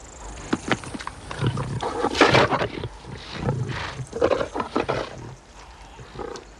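Growls and snarls from a pair of lions feeding on a buffalo carcass, low rumbling roars that swell and subside over several seconds, loud and continuous without speech.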